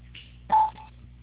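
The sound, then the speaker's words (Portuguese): Telephone keypad tones as a caller types an ID number into an automated phone line: one loud, clear beep, then a fainter, shorter one over a low, steady hum. “Por favor, digite o número do seu CPF com 11 dígitos para que possamos recuperar sua ligação se necessário.”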